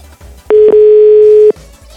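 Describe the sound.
A telephone dial tone: a loud, steady tone lasting about a second, with a tiny dip early on and quiet background around it.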